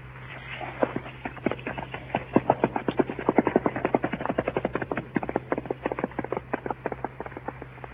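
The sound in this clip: Hooves of a ridden horse clip-clopping on the way toward a fort: a long, steady run of many crisp, evenly spaced hoof strikes over a low constant hum.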